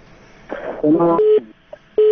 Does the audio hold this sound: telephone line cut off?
yes